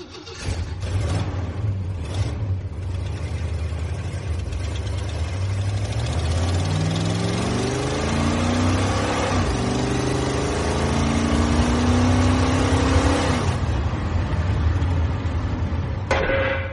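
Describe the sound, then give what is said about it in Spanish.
An Impala car engine runs with a loud, continuous rumble, then revs up with a steadily climbing pitch over several seconds before easing back, with no talk over it. “Mi impala es mi más fiel compañero. Y su voz es el sonido del motor”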